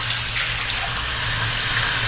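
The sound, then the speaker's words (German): Warm water runs steadily from a tap to rinse hair, a loud, even gushing hiss that fills the whole stretch without a break and with no speech. “spüle das nochmal mit Warmwasser so ein bisschen nach.”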